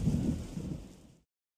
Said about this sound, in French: Il y a de l'orage! Oh, de l'orage! J'ai peur de l'orage!